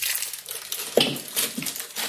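Raffaello coconut sweets are unwrapped from their individual plastic wrappers, headed for a mixing bowl. The plastic makes an irregular, fairly soft crinkling and crackling with a few sharper crunches along the way.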